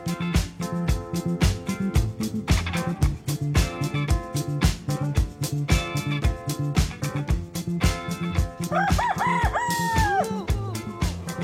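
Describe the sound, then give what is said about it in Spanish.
A rooster crows once near the end, its rising and falling call cutting through loud, rhythmic music that plays throughout. “Ahí está el gallo, ya lo escuchó usted”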